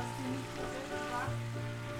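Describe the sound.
Stuffed tomatoes sizzle steadily in a pan as they are stirred, a continuous frying hiss with faint scraping.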